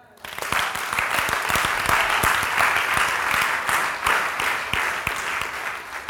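Applause rises from an audience during a church service on prayer. Many hands clap in a dense, lively wash for about six seconds, and a few sharp single claps stand out through the steady clatter.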